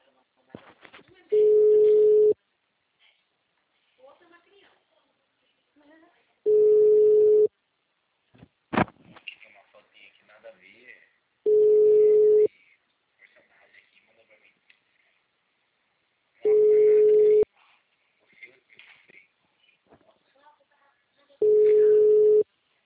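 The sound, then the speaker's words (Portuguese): Ringback tone of an outgoing phone call: five steady mid-pitched beeps, each about a second long, repeating at even intervals roughly five seconds apart, with voices talking quietly between them. “Aí, tá ligando pra Elizabeth.”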